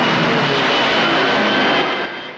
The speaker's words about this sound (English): The planes fly over a flag that shows the RAF insignia. They zoom low over an airfield and one by one bank steeply to the left.